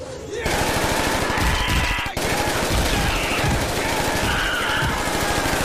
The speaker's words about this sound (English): Quaid wraps a rope around his waist and rappels into the floor below. He sprays fire at a large group of raptors.